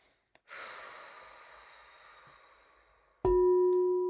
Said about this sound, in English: I always like to begin by taking some nice long slow breaths into the belly.